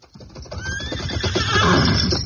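A saddled horse, its coat covered in sweat after running hard, gives a loud, high whinny that quavers and grows in strength over about two seconds, with no talk over it.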